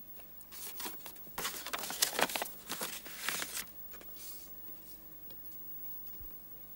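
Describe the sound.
Paper crinkles and rustles faintly as a birthday card and a £10 note are pulled from an envelope, with a cluster of brisk crackles in the first half that then settles into near quiet.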